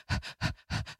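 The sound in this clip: A person imitating a puppy sniffing and panting in someone's face: three quick breathy bursts, each a double sniff, soft and evenly spaced, with no other sound.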